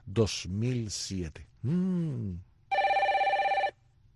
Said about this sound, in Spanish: Has puesto todos los timbres. Menos el que tiene el iPhone.